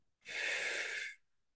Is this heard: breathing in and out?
yes